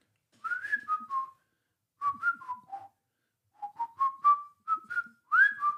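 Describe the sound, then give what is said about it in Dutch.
A person whistles a tune, a champion whistler's song, in short phrases of clear, bright notes separated by brief pauses, the melody stepping up and down and some notes gliding between pitches. “En dat gaat van, en dan fluit ik even naast de microfoon, want anders word je helemaal gek”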